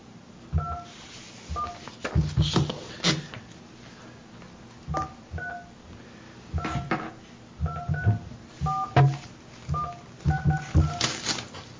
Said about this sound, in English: I dialed the number that, let's see here, let me try it again, maybe it's the phone.